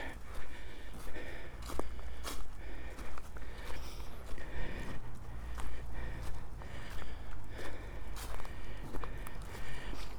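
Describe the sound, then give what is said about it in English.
Footsteps and heavy breathing while climbing steeply uphill through woodland, on a hill above an old drover's track. The steps fall in a steady, continuous rhythm throughout. “And I'm now climbing through woodland, steeply up Lambert's Castle.”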